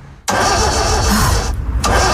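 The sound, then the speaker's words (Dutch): A car engine starting, in a radio advertisement: it catches abruptly after a short quiet lead-in, then runs loud and steady to the end, with a brief dip in its brighter tones partway through. “geniet ze nu van een auto zonder opstartproblemen”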